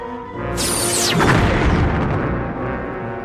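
A starship explodes in a Star Trek space battle as a Cardassian vessel destroys a Bajoran ship. A high whooshing sweep drops sharply into a loud, broad rumbling blast that keeps roaring to the end.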